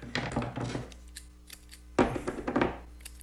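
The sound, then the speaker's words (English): Electrical tape is pulled from the roll and cut to cover the tops of 9-volt batteries: two rasping bursts of stretching and snipping, separated by a short pause. “So I just got some simple electrical tape here. They come in all different colors, obviously.”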